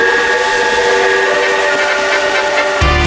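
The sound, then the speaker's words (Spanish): A Renfe passenger train travels toward Pamplona with a loud, steady rumble and a sustained tonal whine. A sudden low thud comes just before the end. “te escribo esta carta desde un tren a Pamplona que no tiene enchufes.”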